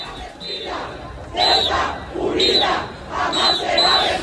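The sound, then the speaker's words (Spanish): A crowd chants loudly at a peaceful street protest march in Ceuta, escorted by police. The rhythmic chant of massed voices swells and repeats about once per second. “Este era el sonido de esa marcha que discurrió de forma pacífica y escoltada por agentes de la Policía Nacional por las principales arterias de Ceuta.”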